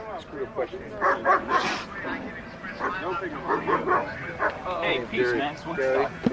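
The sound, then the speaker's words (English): A pet dog barking, with many short, uneven yips and whining sounds in irregular bursts, fairly loud. “That's my dog.”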